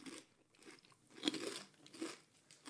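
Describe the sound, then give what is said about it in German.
Crunching on slightly greenish vegan algae prawn crackers, faint dry bites and chews in a few bursts, one crisper snap standing out. “Also nach Krabbe schmeckt es nicht. Ich finde, es schmeckt wie Chips, aber schmeckt nicht nach Krabbenchips.”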